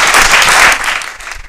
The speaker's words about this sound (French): Est-ce qu'on peut acclamer?